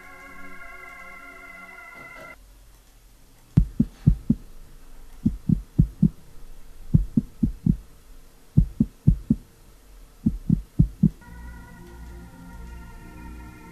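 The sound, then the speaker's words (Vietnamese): A heart pounding hard in fright, as low, dull double thumps repeat steadily in many clusters. A sustained droning tone plays before the beats begin and returns after they stop. “Ngay lúc này đây, có một bàn tay đặt lên trên vai của Trà, khiến cho tim của cô bắt đầu đập thình thịch.”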